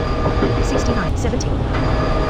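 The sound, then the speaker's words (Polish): Train running in a video game transport simulator at about 47 km/h, heading toward the next station: a steady, dense rumble of rolling wheels with faint high tones above, continuous and even in loudness throughout. “No to pociąg nam zaczął jechać sam. 47 km per godzinę.”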